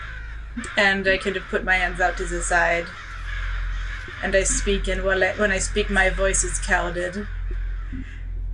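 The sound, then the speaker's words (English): Crows cawing in the distance, faint behind a person speaking over a low steady hum, the calls mostly buried under the talk. “You hear the sound of crows calling in the distance.”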